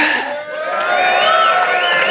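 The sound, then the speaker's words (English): An audience cheers to cast a vote for the most convincing side in a debate: many voices whoop and shout together, swelling slightly louder after a brief dip and holding steady to the end. “Vote by cheering which side was most convincing for 1 point.”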